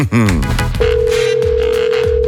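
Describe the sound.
Ringback tone of an outgoing morning phone call: a single steady, sustained electronic tone holding for well over a second above loud, pulsing dance music.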